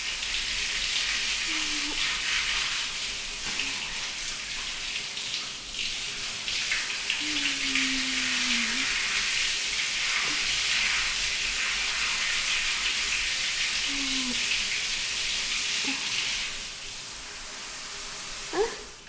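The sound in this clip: Warm shower water rinses sweat off a person's body: a continuous, even hiss of spraying water that holds level almost throughout, easing slightly just before the end.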